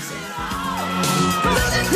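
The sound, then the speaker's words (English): Crowd at an arm wrestling match going wild, overlapping whoops and yells that swell louder toward the end of the short burst. “A private jet lands on a runway as the crowd watching the arm wrestling goes wild.”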